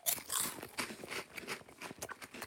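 Crunchy bites into milk-chocolate-coated mini corn chips: many faint, rapid crackling crunches of chewing in quick succession with no talking.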